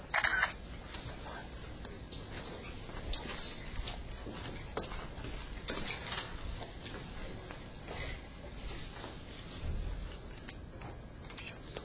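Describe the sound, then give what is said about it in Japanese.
Camera shutter clicks as a photo is taken: a few short, sharp snaps over a steady hiss of background noise, with no talk. “写真撮っとこう。”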